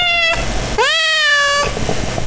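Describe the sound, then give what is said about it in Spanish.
Cat meowing, a couple of loud meows over background noise: a short one first, then a longer, drawn-out meow whose pitch rises and then falls. “Y en la co-conducción está el gato Marcus.”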